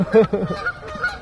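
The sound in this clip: Goose honking near its nest up in a tree, a few loud, nasal, harmonic honks in quick succession followed by fainter calls.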